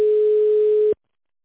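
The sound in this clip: A telephone ringback tone as a call connects to a secretary: one steady, mid-pitched beep lasting just under a second, then abrupt silence.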